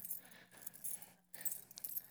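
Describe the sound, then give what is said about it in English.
Keys jangling as they are found in a couch: faint metallic clinks and rattles, with a short silent gap partway through and a final burst of jingling. “I found my keys.”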